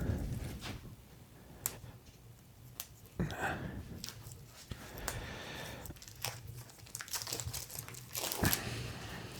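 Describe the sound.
Plastic wrapping crinkling as it is pulled off a cucumber: soft, irregular rustling with a few sharper crackles scattered through, fairly quiet.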